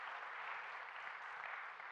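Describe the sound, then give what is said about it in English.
A church audience applauding a volunteer: a soft, even wash of many hands clapping, faint and unbroken throughout with no voices over it. “Can we clap for her? I love it.”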